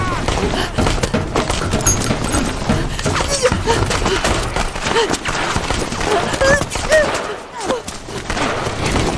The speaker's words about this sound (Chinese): 给我开枪！